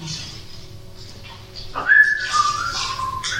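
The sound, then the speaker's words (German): Someone whistles a melody: a clear, fairly loud whistle begins after a quiet stretch of low background noise, gliding upward into held notes. “Und zwar hört ihr den Pfeifen. Da pfeift irgendjemand oder irgendetwas eine Melodie. Und sie kommt auf euch zu.”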